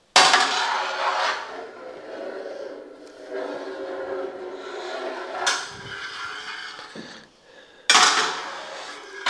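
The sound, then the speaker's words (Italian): Metal curd harp scraping along the bottom of a cheese pot of curdling milk, a few rasping, clanking strokes with quieter stirring between them. “Senti che la lira va sempre a raschiare sul fondo.”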